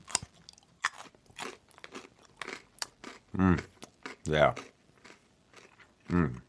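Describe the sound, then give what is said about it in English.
Crunching on a raw carrot: sharp, crisp bites and chewing crunches recur in quick succession, broken by a few brief murmured vocal hums. “And oh, I also got one of my favorite root vegetables, known as carrot.”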